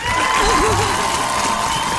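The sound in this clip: Brief applause and cheering from an audience honouring a woman who opened a psychology practice, a short, dense burst of clapping with voices calling out over it.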